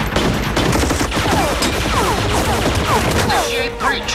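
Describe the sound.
Gunfire rings out as shots are fired back in a tense armed standoff, a dense, loud fusillade of overlapping cracks and bursts that continues without a break for the whole span.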